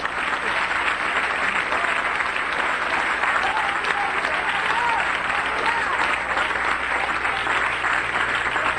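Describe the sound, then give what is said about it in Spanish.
Congregation applauding in church during a sermon, a vigorous, unbroken wash of many hands clapping that stays loud and even for nearly nine seconds, with voices mixed into the crowd. “Denle un aplauso al cielo.”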